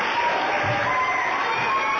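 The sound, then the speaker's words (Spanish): Applause for the students of a school musical: continuous, even clapping from a crowd, holding a steady level from start to finish. “Bueno, pues un aplauso para todos los del musical, ¿no?”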